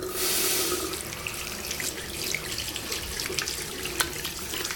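Water runs from a tap while hands are washed, a steady hissing stream with small splashes and drips, loudest at the very start and then settling to an even flow.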